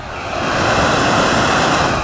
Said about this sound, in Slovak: Na chvíľočku preruším nahrávanie, aby som zachytil zvuk plynového variča,